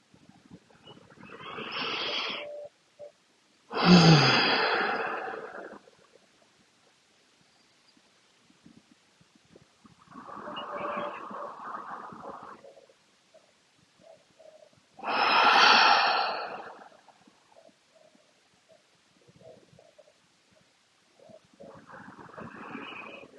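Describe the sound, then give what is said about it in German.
Slow, deep breaths in and out during a relaxation exercise, several long airy inhales and exhales spaced a few seconds apart, moderately loud with quiet pauses between them. “nimm dir einen Moment für ein paar tiefe, nährende Atemzüge, ob mit offenen oder geschlossenen Augen.”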